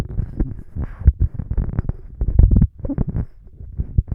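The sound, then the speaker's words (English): Handling noise rumbles from a Mackie EM-89D budget handheld microphone as it is passed back and forth between hands. Irregular low thumps and bumps follow one another throughout, with no voices. “I'll go ahead and pass it back and forth between my hands so we can see what kind of handling noise it picks up.”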